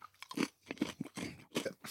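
Crunchy chocolate snack pieces being chewed, giving a quick series of loud, dry crunches with brief gaps between bites. No one speaks.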